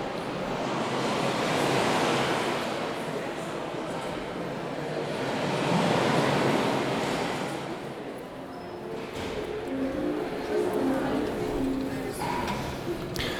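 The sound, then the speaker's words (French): Sea waves playing from projected video screens in a large exhibition hall: a broad, rushing surf that swells and recedes in slow surges, fairly soft and continuous throughout. “C'est un peu émouvant, et on entend la mer.”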